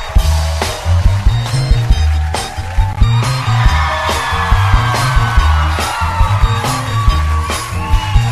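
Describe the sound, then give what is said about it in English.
Loud, upbeat theme music for a talk show, driven by a steady pounding beat and a repeating deep bass line with crisp percussive hits throughout. “Sorry to skip the theme music, people. Let's get that going first.”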